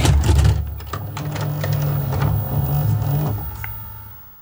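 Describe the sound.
VHS tape being loaded into a video player. The mechanism gives a continuous mechanical whir with small clicks and clatter, loudest at the start and fading away at the end.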